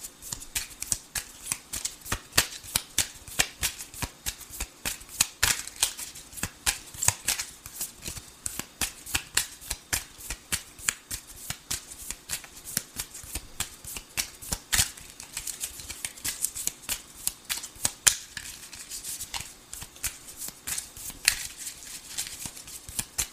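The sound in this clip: Playing cards shuffled for a card reading, a rapid stream of crisp riffling clicks and slaps that runs steadily for the whole stretch at an even, moderate loudness, with no voices.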